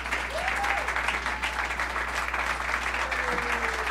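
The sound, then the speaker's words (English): Audience applause welcomes the state governor onto the stage at a public announcement of funding for mall projects, a dense, steady clapping that holds at full strength for the whole clip. “please give a warm Western New York welcome to the 57th governor of the great state of New York, Governor Kathy Hochul.”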